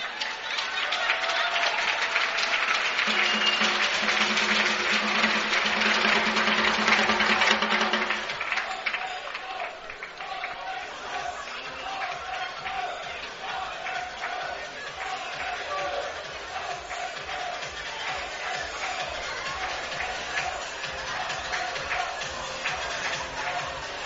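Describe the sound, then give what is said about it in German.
Crowd applause for the defense during a timeout at an American football game: loud, broad crowd noise for the first several seconds, then it drops away to a lower murmur while a voice talks over the field sound. “Applaus dabei schon mal für die Defense.”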